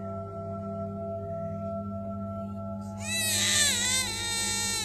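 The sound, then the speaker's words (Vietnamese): A baby's cry bursts in partway through, loud, high and wailing, with wavering pitch, over steady low background tones that run from the start. “Tiếng trẻ con khóc như xé toang cả không gian.”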